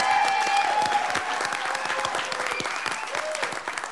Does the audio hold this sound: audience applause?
yes